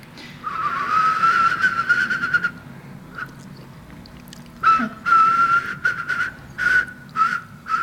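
Whistled imitation of a whimbrel call: a sustained, warbling high whistle. After a short pause it returns as a string of separate whistled phrases.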